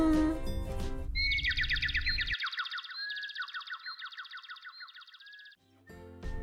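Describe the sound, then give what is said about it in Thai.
A robin, a small red-orange-breasted bird linked to Christmas, chirps in several rapid, high-pitched trilled phrases repeated over about four seconds, clear and bright with short pauses between them. “เจ้านกโรบินเนี่ยก็ถือเป็นอีกสัญลักษณ์หนึ่งของเทศกาลนี้ นอกจากความน่ารักของมันแล้ว เจ้านกที่มีหน้าอกสีแดงส้มนี้เนี่ยนะฮะมันมีดีอะไรกันนะ”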